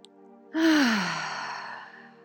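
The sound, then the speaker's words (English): A deep breath let out as a long, loud sigh during a guided relaxation exercise. It is breathy yet voiced, with its tone falling in pitch as it fades over about two seconds. “we'll inhale a nice deep breath in. Just let the body get heavy. Just one more. Inhale in.”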